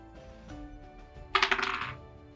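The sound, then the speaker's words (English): Dice rolling during a tabletop role-playing game, thrown for a perception check: a short, bright rattle of several quick clattering hits that starts abruptly and dies away within about half a second. “That is a natural one. I'm gonna stop rolling that dice. That dice is going away.”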